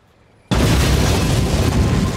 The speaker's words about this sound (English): There's a flash of light as the house is struck by a bomb. Smoke and dust drift over the rubble.